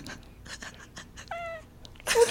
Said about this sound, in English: The cat's on the mic.